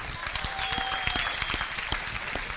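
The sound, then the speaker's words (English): A church audience applauds to welcome guests, a pastor and his wife, with crisp individual claps standing out over a steady bed of clapping throughout. “We just want to welcome you here and give them a hand, would you?”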